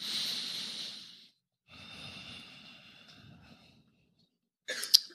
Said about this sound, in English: And maybe take a deep breath again.